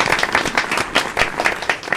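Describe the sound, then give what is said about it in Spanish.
Applause from a group, loud and choppy, with many sharp overlapping claps that swell and ease in quick pulses throughout. “Un aplauso para el llamamiento de Arbolito.”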